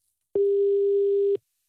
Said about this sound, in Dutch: Maar ik dacht, misschien moeten we hem toch even bellen. Even kijken waar hij uithangt.